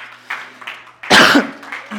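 A preacher delivering a sermon gives one loud, rough cough that stands out sharply above faint quieter sounds around it.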